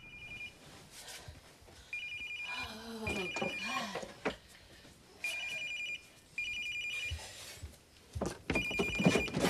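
A telephone rings indoors in a bedroom in bursts of electronic trilling, about six rings separated by short pauses, with faint rustling and movement between them.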